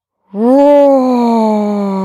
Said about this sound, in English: roar with your tongue out. Go ahead and continue doing the lion's breath